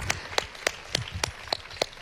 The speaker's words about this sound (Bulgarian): Силни аплодисменти! Силни аплодисменти за Борис Христов и Бояна Карпатова!